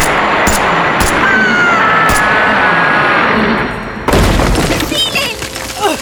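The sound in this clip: Soldiers open fire: a few sharp bursts of shots cut through a dense, steady roar, then a sudden louder, harsher burst of noise takes over near the end.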